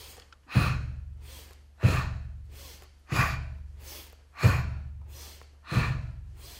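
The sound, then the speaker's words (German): Slow, deliberate breathing during a guided breathing exercise, in through the nose and out through the mouth: five evenly spaced, loud breaths, each starting abruptly and trailing off over about a second. “Und jetzt beginne ich einatmen durch die Nase, ausatmen durch den Mund.”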